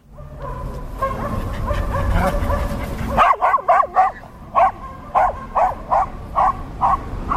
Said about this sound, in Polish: Gdzieś niedaleko w parku psy bawią się ze swoimi właścicielami.